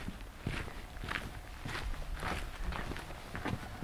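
Soft footsteps walking outdoors, a series of faint, evenly spaced steps with a light scuffing crunch, carrying on at a steady pace with no voices.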